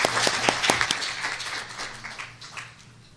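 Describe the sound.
An audience applauds to welcome a guest speaker to the stage, a dense wash of many hands clapping that is loud at first and gradually fades.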